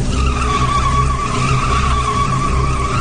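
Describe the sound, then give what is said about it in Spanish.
A car skids as the driver loses control of the steering wheel, a sustained high tire screech holding steady throughout over a low rumbling roar. “Fue tal su impresión que perdió el control del volante.”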